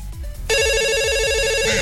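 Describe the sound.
An incoming call rings on a telephone as a loud electronic ringtone: a steady, bright, warbling tone that pulses in a quick even rhythm and continues to the end.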